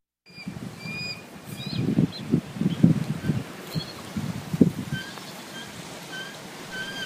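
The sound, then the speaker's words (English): Two adult bald eagles and a juvenile call out on an old pier, giving thin, high chirping notes over a bed of low rustling and scuffing that swells in uneven bursts. “So that's the sound of two adult bald eagles having breakfast out on an old pier, chatting with one of their offspring who just landed next to them.”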